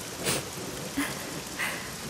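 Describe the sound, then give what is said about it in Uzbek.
Steady rain falls in a broad, even hiss, with a few slightly louder patters of drops rising out of it. No voices are heard. “Yomg'irni yaxshi ko'raman. Yomg'irda ko'z yoshlaring bilinmaydi.”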